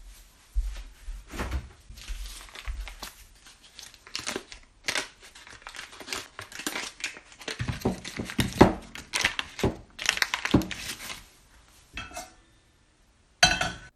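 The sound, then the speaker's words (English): Kitchen clatter while cooking gooseberries, with butter fetched from storage: a cupboard opening, clinking dishes, pans and cutlery, and some crinkling, giving many irregular knocks and chinks at varying loudness. “It's uh, time to get them into the pan, I suppose. Yeah, let's get going. Well, I'll just get the butter out.”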